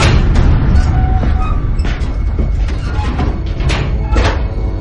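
A door is opened and then blocked shut aboard a ship during a disaster at sea. A few knocks and thuds sound over a steady low rumble.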